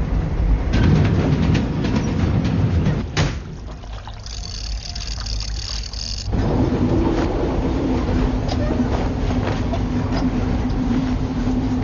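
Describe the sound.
A passenger train runs on its rails, heard from inside the carriages as a continuous broad rumble that drops quieter for about three seconds midway, then returns at full strength.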